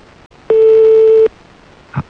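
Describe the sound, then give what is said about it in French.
A telephone line gives a single ringing tone while a call waits to be answered: one steady pure tone lasting under a second, then a faint short click. “Bon, on va laisser sonner alors jusqu'à ce que ça tombe sur le répondeur.”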